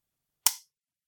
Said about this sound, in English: What you just heard was the best trigger I have ever pressed in my entire life.